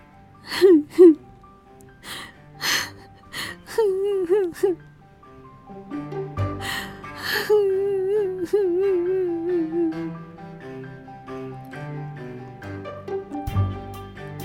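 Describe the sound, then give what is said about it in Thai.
A girl cries and sobs, with gasping catches of breath followed by wavering, whimpering wails that rise and fall in pitch, fairly loud and with no talk over them. “บูเรเอลร้องห่มร้องไห้ ร้องไห้เป็นวักเป็นเวรแล้วก็รู้สึกอายมาก”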